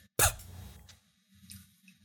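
A single short cough from dust raised by shaking out a cloak, a sharp burst that dies away quickly into a faint low rumble, with no talking.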